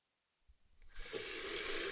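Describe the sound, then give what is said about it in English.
Water runs from a tap into a sink for hand washing. A few soft knocks come first, then a steady, loud rushing hiss of flowing water starts and continues to the end. “I went to wash my hands and looked up at the mirror.”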